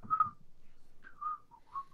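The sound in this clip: Whistling of a catchy song's tune, a few short clear notes in brief phrases with a pause near the middle, fairly soft and alone.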